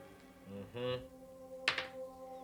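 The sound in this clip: Dice clatter briefly on a table during a tabletop role-playing game: a short, sharp burst of two quick knocks over a steady musical background.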